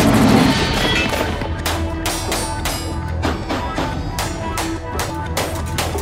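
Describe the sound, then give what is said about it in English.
Gunfire from Old West-style guns at a cowboy action shooting competition: many sharp, loud reports crackle in an irregular, rapid string over a steady background din. “What is cowboy action shooting? Cowboy action shooting is a shooting discipline based on the guns of the Old West.”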